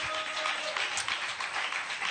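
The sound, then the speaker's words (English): A church audience claps for itself after a prayer during a worship service. The clapping is dense and even throughout, with no voices standing out. “Clap for yourselves.”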